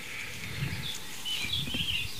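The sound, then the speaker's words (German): Faint bird song of short, high, repeated phrases with slight variations, sounding over a steady background hiss. “Genau das ist die Struktur dieses Gesanges und das wird immer wieder wiederholt mit leichten Abwandlungen und natürlich auch individuellen feinen Nuancen, die unterschiedlich sind, sonst würden die sich nicht voneinander unterscheiden, die Vögel.”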